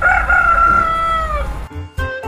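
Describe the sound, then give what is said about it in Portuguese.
A rooster crows one long, loud cock-a-doodle-doo that trails off, then gives a couple of short, sharp calls after a brief pause. “De manhã, bem cedo, tinham que pular da cama, pois sua velha patroa queria que começassem a trabalhar assim que o galo cantasse.”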